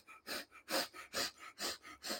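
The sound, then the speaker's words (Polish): Rapid, rhythmic breaths taken through the nose with the mouth closed: five loud, hissing inhalations alternating with softer breaths in a quick, even pattern. “usta zamknięte, liczę tylko wdechy nosem.”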